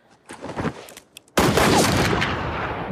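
Gunfire in a film scene as the marshal and another man shoot at cornbread tossed into the air over the prairie: a few scattered sharp reports, then a loud, dense, continuous barrage of shots that lasts to the end.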